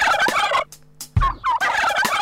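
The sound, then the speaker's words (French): A little turkey gobbles in two loud, rapid, rattling bursts separated by a short quiet gap, the second burst longer than the first. “Cette petite dinde fait.”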